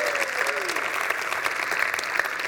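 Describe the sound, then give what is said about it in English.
An audience applauds to welcome a speaker, with dense, even clapping sustained throughout at a steady moderate level. “Thank you very much indeed for that warm welcome. Very much appreciated.”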